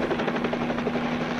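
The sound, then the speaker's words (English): A company helicopter landing on a roof gives a steady, loud rotor drone with a low, constant hum that holds an even level throughout, with no voices. “We're going to be landing the helicopter, the company helicopter, on your roof here in just a few minutes.”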